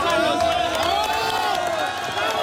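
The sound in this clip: Crowd cheering and applauding in a street as a woman in her thirties is pulled alive from earthquake rubble after 36 hours, in Pereira or Cali. Steady, dense crowd noise runs throughout, with a voice talking over it.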